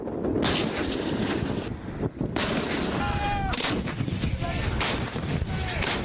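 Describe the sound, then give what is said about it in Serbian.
Heavy gunfire from armored units during an Iranian military exercise near the Azerbaijan border: loud, dense booming bursts with several sharp onsets over a continuous roar, and no speech. “Planirane operacije ovom manevru započele su jutro s pucanjem oklopnih postrojbi i zračnom podrškom vojnih helikoptera unaprijed određenom području.”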